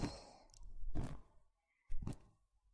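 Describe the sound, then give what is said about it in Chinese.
A slow, deep breath drawn in during a guided breathing exercise, heard as soft, faint, airy rushes of air with a short pause between two breaths. “来深呼吸吧。吸气”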